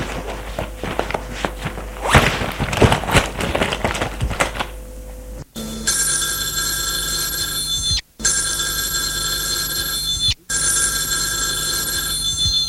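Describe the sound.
Telephone bell ringing loudly in long continuous bursts, three rings broken by short gaps, preceded by clattering and shuffling sounds.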